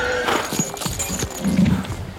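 Horses' hooves clip-clop in a ceremonial street procession led by mounted butchers' guild members in cuirasses, escorting a king through Berlin in 1757. Many uneven hoof strikes overlap with a busy background.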